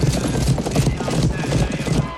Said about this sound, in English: This is a horse race, I'm crying out loud.